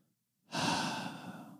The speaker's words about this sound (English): I get through all that by simply taking a deep breath